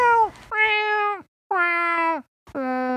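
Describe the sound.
A cat meowing: a few drawn-out, tonal meows with short gaps between them, heard alone without talk.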